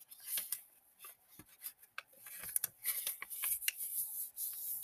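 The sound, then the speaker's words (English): Corners being folded in by hand, heard as many faint, short rustles and creases in an irregular pattern, with no voices. “Okay, so I just folded all the corners in, and then I'm going to flip it over and fold the corners in on this side.”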